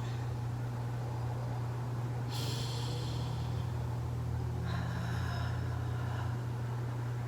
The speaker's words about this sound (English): While I'm taking deep breaths to breathe in and out the sage.